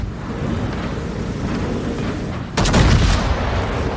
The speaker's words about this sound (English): Introducing Battleship Wisconsin, the newest addition to World of Warships. Let's see her in action.